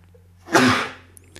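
A single sneeze from a person: one sharp, breathy burst rising out of near silence and fading within about half a second, with no speech around it.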